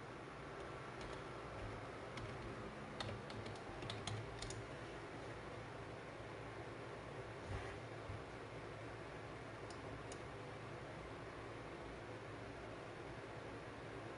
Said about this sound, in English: I want to see if we got Agenda 21 in here. Let's type that in.